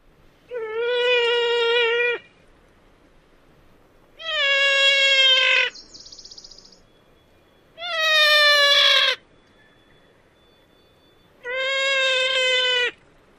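Four drawn-out, nasal wails of a female wild turkey's high-alarm call, each about a second and a half long. The calls are harmonically rich and evenly spaced, with quiet gaps between them.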